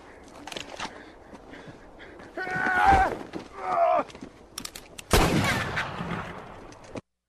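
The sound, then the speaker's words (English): Gunshots in a western movie scene where men shoot at cornbread out on the prairie. A few sharp reports crack among men's voices, and one louder, longer blast comes late. “Gentlemen, shooting cornbread out here on the prairie is getting us no closer to the Ned Pepper gang. One more. This'll prove it. Please hold fire.”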